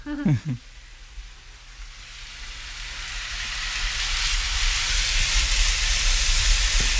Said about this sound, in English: And into that, I'm also going to add in our minced onions. Also going to add a pinch of salt.